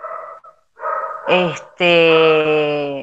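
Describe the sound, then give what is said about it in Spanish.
A small pet dog barks and yips: a short yelp, then a longer drawn-out cry, heard after a person talking. “Ese es mi perrito, ¿se escucha?”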